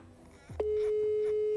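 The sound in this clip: A telephone call rings out unanswered on the line: after a brief burst of other sound, a steady, unbroken mid-pitched tone starts partway in and holds at an even level to the end.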